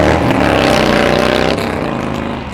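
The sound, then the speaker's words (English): V-twin motorcycle engine running at a motorcycle dealer, a loud, steady throbbing rumble that eases slightly partway through and keeps idling evenly to the end. “There goes the V-twin.”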